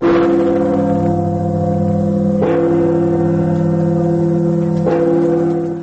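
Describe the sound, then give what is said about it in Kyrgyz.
Church bells peal in a continuous 15-minute ringing marking the 1025th anniversary of the Christianization of Kievan Rus. A loud, sustained humming bell tone is renewed by three fresh strikes, roughly every two and a half seconds. “Бул үч өлкөнүн чиркөөлөрү 15 мүнөт бою тынбай коңгуроолорун какты.”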